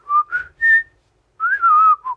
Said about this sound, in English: Can you whistle? I can. Let's hear you.